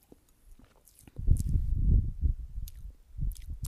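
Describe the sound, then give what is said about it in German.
Wet lip-smacking and chewing from someone eating with their mouth open, a series of squishy, smacking bursts of varying loudness that stop briefly and then resume. “Alle, die jetzt so richtig hassen, wenn man so schmatzt”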